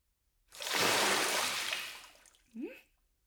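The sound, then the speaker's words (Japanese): Hot bath water poured over a person while washing in a bath: one continuous rushing splash of about two seconds that tails off, then a brief, short vocal sound. “それじゃああなたにもお湯をかけるわね。”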